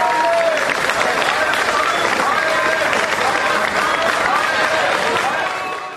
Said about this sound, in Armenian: Նիստից առաջ հավաքված ցուցարարները նիստերի դահլիճ ժամանող օրինագծին դեմ հանդես եկած ժառանգություն և հայ հեղափոխական դաշնակցություն ընդդիմադիր խմբակցությունների պատգամավորներին դիմավորեցին ծափողություններով։